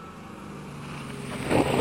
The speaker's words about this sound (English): Hey, our fuel is getting low. Let's pull into this sketchy-looking gas station.